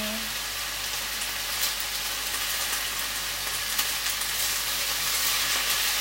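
Vegetables, bean sprouts and thinly cut carrots stir-fry in a pan with a seasoning paste, giving a steady sizzling crackle with scattered sharp pops throughout and no talk.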